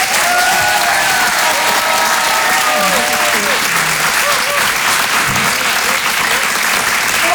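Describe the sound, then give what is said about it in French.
Audience applause and cheering for a comedian at a live stand-up show at the Grand Point Virgule: loud, dense clapping throughout, with a few voices and whoops rising over it. “Je vous demande de faire du bruit, s'il vous plaît, pour Judith Delair.”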